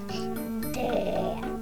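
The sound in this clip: A voice imitates a goat with one drawn-out, nasal bleat lasting about a second and a half. The pitch stays level and the sound turns rasping and gritty in the middle.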